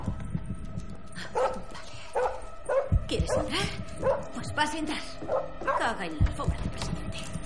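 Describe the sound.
A dog whimpering and yipping restlessly at a closed study door, with thin, high whines that rise and fall in short bursts and a voice talking at times.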